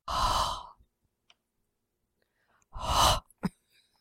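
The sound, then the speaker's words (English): Heavy mouth breathing right into a microphone: two loud, airy breaths separated by a few seconds of near silence, with a short softer puff of air just after the second one. “Oh yeah, breathe heavy into the microphone.”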